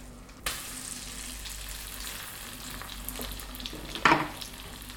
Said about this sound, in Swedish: Nu tystnar det i pannan här strax. Nu lägger jag i fisken.